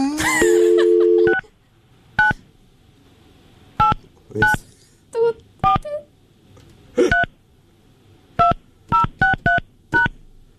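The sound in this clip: Touch-tone telephone keypad beeps as a number is dialed: a string of short, bright tones, spaced irregularly at first and then coming faster near the end, with quiet gaps between them.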